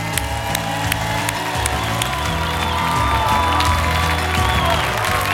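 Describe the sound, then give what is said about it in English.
A church audience applauds and cheers a guest speaker, a pastor. Loud, continuous clapping with whoops runs unbroken throughout. “Would you please help me welcome Dr. and Pastor John Chesteen.”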